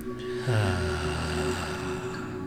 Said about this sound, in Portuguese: Inspira. Inspira outra uma vez.